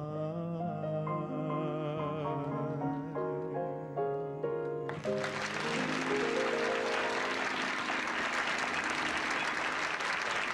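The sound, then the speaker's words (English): Audience applause for two performers breaks out suddenly after the closing notes of a sung song, turning into dense, loud, sustained clapping that fills the second half. “Listen to the applause for those two folks here.”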